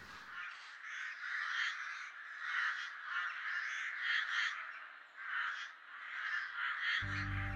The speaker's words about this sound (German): Die Krähen schreien und ziehen schwirrend flugs zur Stadt.